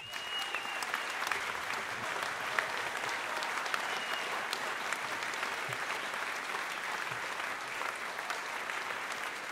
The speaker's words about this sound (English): I would love for you to put your hands together and welcome to the stage, Miss Carmen Bradford.